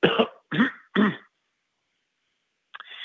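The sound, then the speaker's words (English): A person imitates clearing their throat and coughing: three short, harsh rasping bursts in quick succession, a pause of silence, then one more brief rough sound. “like that, just like that, a little, you know, throat clearing, a cough.”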